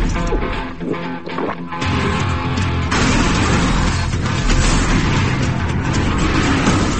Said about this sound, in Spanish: Sospechosos hacia el norte por la 110. Disparan con ametralladoras.